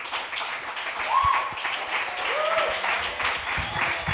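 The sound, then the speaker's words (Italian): Audience applause at a comedy night, steady dense clapping from a crowd throughout, with a couple of brief whistles rising above it. “Tommaso Adami, fate un grandissimo applauso, continuate a farlo.”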